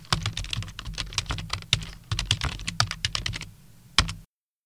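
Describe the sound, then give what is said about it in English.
Someone types an email address on a computer keyboard: many quick, uneven clacking keystrokes in bursts, with a last sharper stroke before silence. “For example, if I go ahead and type my work email into the site now,”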